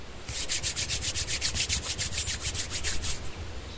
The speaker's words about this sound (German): Schließen Sie nun Ihre Augen. Reiben Sie Ihre Handflächen aneinander